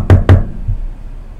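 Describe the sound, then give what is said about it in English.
Two quick, sharp knocks on wood in close succession, followed by a fainter, duller thud. “knock on wood”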